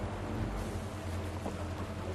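Low, steady rumble of a boat out on the sea, a broad washing noise over a humming drone, continuous and fairly faint, with no talk.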